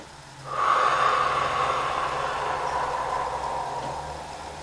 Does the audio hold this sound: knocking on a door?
no